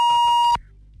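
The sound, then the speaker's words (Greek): A single steady, mid-pitched electronic beep from a telephone sounds for about half a second, then cuts off abruptly, leaving only a faint low hum. “Τώρα κάτι έκανε ένα σήμα το τηλέφωνο.”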